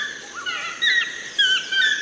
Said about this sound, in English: You have the rainforest cover above you, and what you hear is the sounds of a rainforest.